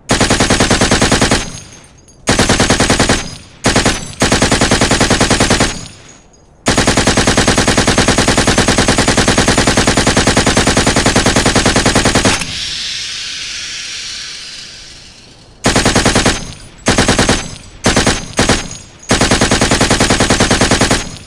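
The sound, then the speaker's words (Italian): Automatic gunfire from AKK-416 assault rifles shooting 5.56 rounds inside a building: several long, loud sustained bursts separated by short gaps, with a quieter hissing stretch in the middle before more rapid bursts. “I loro AKK-416 si dimostrano incredibilmente efficaci. I loro colpi sono precisi e decisivi.”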